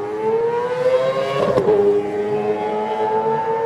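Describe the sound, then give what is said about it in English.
Honda racing motorbike engine revving hard as it sets off from the start, a loud, continuous buzzing roar whose pitch creeps upward, broken by one sharp crack partway through. “And away they go, revs go up.”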